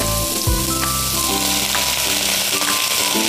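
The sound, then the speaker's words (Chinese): Frying sizzle of king oyster mushrooms and napa cabbage in a hot pan, a loud, steady, dense hiss that runs unbroken through the whole clip with no voices. “随后倒入杏鲍菇，再倒入白菜，”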